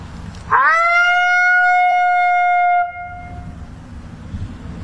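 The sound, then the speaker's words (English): A person's voice imitates a female lonesome howl, soft and higher pitched: one sustained, clear tone that swoops up at the start, then holds steady and tapers off. “I can do maybe a female lonesome, so it's a little softer, a little higher pitch, and I'll just do that, maybe two or three, and we'll show you what that sounds like.”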